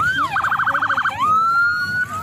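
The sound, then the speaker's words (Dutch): A police car siren as the car drives straight through a protest blockade: a rising tone breaks into a fast warbling yelp, then settles into a steady high wail that creeps slowly upward. “Hoor je? Kijk hier. Ja, hier rijdt dus een politieagent dus echt dwars door die blokkade heen.”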